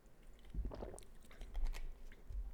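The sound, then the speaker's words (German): Quick sip of a drink, heard as a few soft, wet mouth and swallowing sounds clustered near the start with another brief burst later, faint and without talk. “Mal kurz einen Schluck trinken.”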